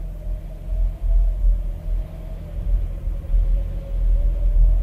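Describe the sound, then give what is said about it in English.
A car drives on a windy night, heard as a steady, loud, low rumble that swells and dips slightly throughout, with no talking. “Mr. Morgan is driving. It's a windy night”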